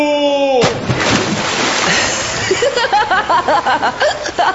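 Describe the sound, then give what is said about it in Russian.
A brief descending tone cuts off into a big splash as someone is dragged into the water. Sustained churning and sloshing follow as they swim, loud and busy throughout. “Я все-таки затащил вас в воду, капитан. Теперь плывите.”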